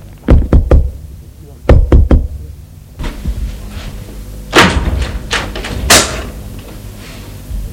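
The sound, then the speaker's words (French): Knocking on an apartment door in a three-storey building, sharp raps in two quick clusters, then a run of softer, scattered thuds and knocks. “ils vont frapper à l'appartement de M. Raffiani.”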